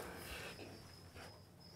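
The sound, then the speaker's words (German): A grasshopper chirps in a faint, steady, high-pitched buzz that holds throughout, with soft background noise and no talk. “Guck mal. Heuschrecke.”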